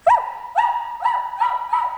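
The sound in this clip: A girl's voice imitating a barking dog while crawling on all fours around a table, five quick, high-pitched yelping barks in succession, loud and alone.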